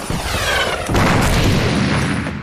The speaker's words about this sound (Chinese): 我从这里听到枪声、炮声不断。